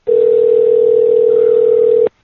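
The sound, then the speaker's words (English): A telephone dial tone sounds while calling someone back. It is a single loud, steady, unbroken tone that lasts about two seconds and then cuts off abruptly. “I'm trying to get Milkman back on, see if he answers.”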